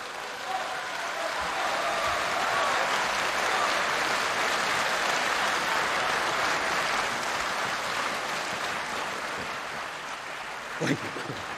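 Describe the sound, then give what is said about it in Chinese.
Audience applause at a Chinese crosstalk comedy performance, a broad, sustained roar of clapping that stays steady for around eleven seconds, with a brief louder burst near the end. “谢谢谢谢朋友们的掌声啊”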